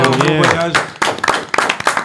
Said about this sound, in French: Eh ben, on peut applaudir très joli bleu et les guépiers d'Europe.